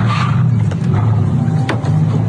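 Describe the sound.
Engine of a Mercedes car reversing through a car park: a loud, steady low rumble that holds throughout, with only small shifts in level.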